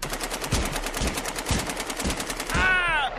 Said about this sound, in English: Quick, Davy, use our secret weapons, guns.